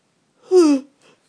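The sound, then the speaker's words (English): A human yawn: one drawn-out, voiced moan that slides downward in pitch, followed by a faint, short breath. No words are spoken. “I've got to stop yawning, but it's the cat's fault”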